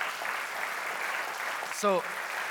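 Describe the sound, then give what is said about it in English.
Congregation clapping for the Lord during a church service: a steady, dense patter of applause that runs throughout, with a brief voice breaking through near the end. “Can we just give the Lord a clap and just thank him for what he's doing?”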